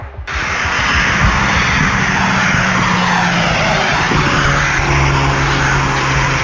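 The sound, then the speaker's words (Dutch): A Volkswagen Golf getaway car speeding along a ring road, giving a loud, steady roar of engine and road noise that holds at full strength throughout. “Hun golf is goed te horen op hun razendsnelle vlucht op de randweg richting de N717.”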